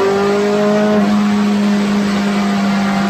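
A race car engine revving hard in third gear toward 8,000 rpm on a circuit: a loud, continuous, harmonically rich roar that holds steady throughout.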